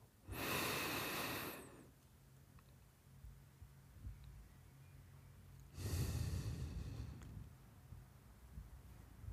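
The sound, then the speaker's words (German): Slow, deliberate breathing during a closed-eyes relaxation exercise: two long, airy breaths separated by a quiet held pause of several seconds, soft and faint against a low background hush. “Und jetzt sollst du vier Sekunden einatmen, vier Sekunden halten und vier Sekunden ausatmen mit geschlossenen Augen.”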